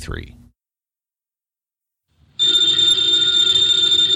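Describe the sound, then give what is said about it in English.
A telephone bell rings in one continuous, loud metallic trill, following a brief spoken voice and a pause of silence. “the ringing of that phone bell means mystery, adventure.”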